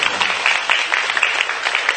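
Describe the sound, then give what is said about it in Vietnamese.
Applause from an audience of Buddhist followers during a temple dharma talk: a dense, steady clatter of many hands clapping that fills the whole moment without pause. “Thành ra xin mời quý vị Phật tử cho một tràng pháo tay đi đó.”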